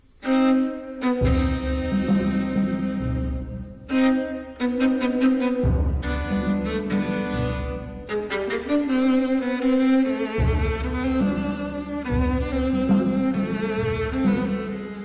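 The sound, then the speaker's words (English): The tango opening from Stravinsky's The Soldier's Tale: bowed string lines over sustained chords, moving in a steady duple pulse, with phrases cut by brief pauses. “listen to how the tango begins so you will recognize it the next time you hear The Soldier's Tale.”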